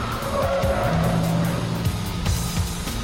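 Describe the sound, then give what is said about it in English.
A truck thrown into a sharp right turn, accelerating hard as its rear end swings out and skids, a loud, steady engine roar with tyre noise that holds throughout the few seconds. “Mike throws his truck into a sharp right turn and accelerates”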